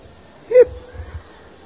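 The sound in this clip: During a sermon, a preacher's voice imitates a drunk man's hiccup: one short, sharp vocal hic, followed by faint low murmurs.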